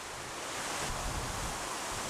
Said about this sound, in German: Am Morgen danach weht es immer noch heftig